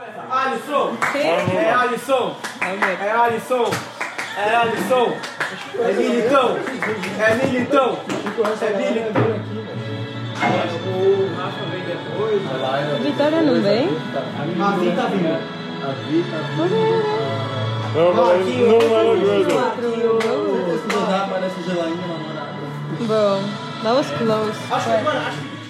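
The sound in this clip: Friends enjoying a night in while watching Brazil play in the World Cup, with lively overlapping voices and excited chatter, punctuated by scattered clapping, all fairly loud throughout.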